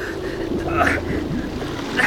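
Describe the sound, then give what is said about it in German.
Sewage water splashing and sloshing as it pours in through a door, a continuous watery rush with small surges that stays fairly steady throughout, with faint voices underneath. “Was ist da an der Tür? Plätschert irgendwas. Das Abwasser! Das kommt hier rein!”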